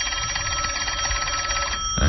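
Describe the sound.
A telephone bell rings steadily and continuously in a bright, repeating trill, alone without voices, ending in a brief low thud.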